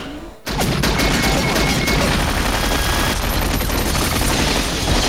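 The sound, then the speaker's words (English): A helicopter's tail strikes a crane arm with a sudden loud crash, followed at once by dense, continuous rapid gunfire as the pilot loses control. “Jack smiles when he sees the tail of the chopper hit the arm of the crane that Danny is driving. Jack peppers the aircraft with bullets as the pilot loses control.”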